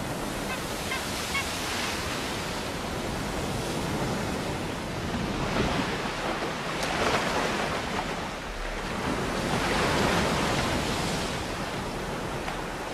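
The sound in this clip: Powerful ocean waves breaking on a steep beach, a continuous roaring wash of surf that swells and recedes, surging loudest around the middle and again near the end.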